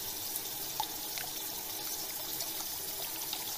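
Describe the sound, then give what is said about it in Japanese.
Running water rinses foam and conditioner from hair, making a steady, soft hiss with a faint splashy flutter throughout and no talk. “それでは泡を流していきます。先ほどのコンディショナーも一緒に流しますね。”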